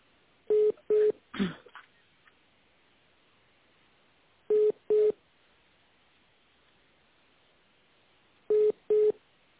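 Telephone line tones while a call is being connected: three evenly spaced pairs of short, steady beeps, each pair about four seconds apart, with a brief rustle after the first pair.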